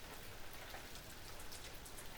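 Steady rain falling by an outdoor swimming pool, a dense, even hiss of drops striking surfaces that stays constant from start to end, with no voices or thunder.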